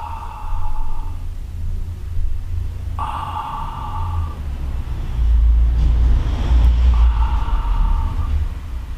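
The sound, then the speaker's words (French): A person breathes out slowly to demonstrate exhaling during a relaxation exercise, making long, soft, breathy rushes of air that stretch over several seconds. “Je vais faire du bruit pour essayer de vous montrer. Donc vous expirez.”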